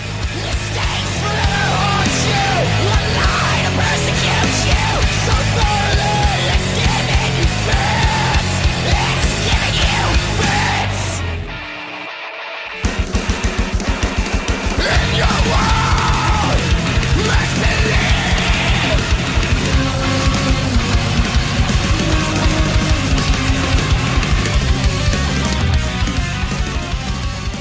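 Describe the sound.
Heavy, aggressive metal from a band's final album: loud, dense distorted guitars and pounding drums with yelled vocals, broken by a brief near-silent gap midway before the onslaught resumes.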